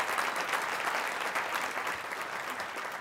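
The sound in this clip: Sustained audience applause at an afternoon library annual address, a steady, dense wash of clapping that holds at an even level through the whole clip with no talk over it.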